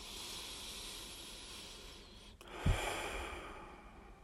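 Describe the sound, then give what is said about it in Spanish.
Faint, airy breathing: a long, soft hiss of deep breath through the mouth, with a brief low puff partway through, and no talking. “Inhala profundo, exhala por la boca, largo y suave. Una vez más.”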